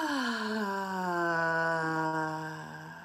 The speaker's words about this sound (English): Nice big inhale and let it out with sound. Inhale. And exhale.